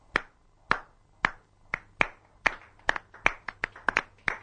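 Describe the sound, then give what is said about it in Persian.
Hand claps in honor of a bride and groom at a wedding, sharp separate claps that begin widely spaced and quicken into a busier, uneven patter, fairly soft throughout. “کف افتخار عروس و داماد. کف مبارکه.”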